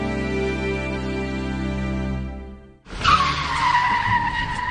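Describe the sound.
Car tires skid as a vehicle turns at a road crossing. A steady engine drone gives way to a loud, abrupt screech of rubber, with a sliding high squeal that dips slightly in pitch before fading into harsh road noise.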